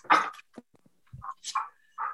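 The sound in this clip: Female dogs give several short, high yips and whimpers in quick, uneven bursts with gaps of near silence between them, fairly faint, with no talk.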